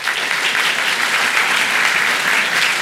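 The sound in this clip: An audience applauds to welcome a novelist onto the stage at a literary conversation event. The clapping is dense, steady and loud throughout, with no break or swell.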